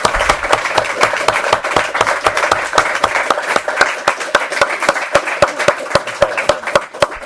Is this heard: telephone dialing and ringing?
no

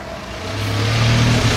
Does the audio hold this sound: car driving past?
yes

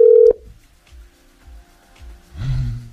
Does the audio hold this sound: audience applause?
no

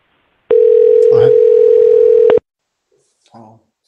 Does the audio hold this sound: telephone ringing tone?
yes

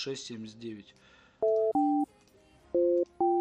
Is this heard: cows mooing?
no

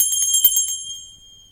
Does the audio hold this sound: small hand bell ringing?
yes

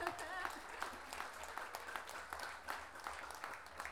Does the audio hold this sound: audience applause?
yes

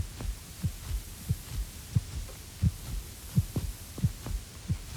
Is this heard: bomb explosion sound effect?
no

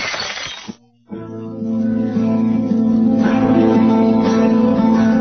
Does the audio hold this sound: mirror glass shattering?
yes

